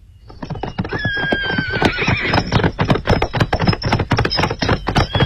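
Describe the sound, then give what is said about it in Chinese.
A horse neighs loudly over a rapid, continuous clip-clop of hooves as it gallops away, the whinny rising above dense, even hoofbeats that carry through to the end. “富山不再多说话了，骑马绝尘而去”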